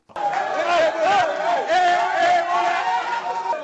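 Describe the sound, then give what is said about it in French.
A crowd in Conakry cheers loudly after Guinea's Syli National beat Uganda 2-0, with many voices shouting and whooping together in a continuous, excited roar. “bravo au Sili National donc, qui a battu hier l'Ouganda 2-0. On écoute cette réaction de joie à Conakry.”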